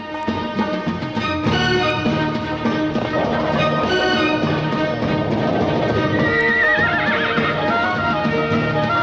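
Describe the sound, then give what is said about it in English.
A frisky tethered horse whinnies over a steady, dense bed of sound, with a brief wavering neigh standing out near the end and hooves clip-clopping throughout. “The tethered horse senses the danger and is frisky.”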